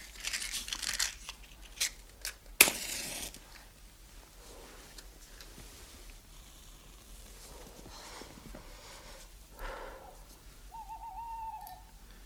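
Owl hooting, faint and low, with a sustained tonal hoot near the end. Earlier there is a brief rustle, crumpling and crackling noises, and a sharp burst.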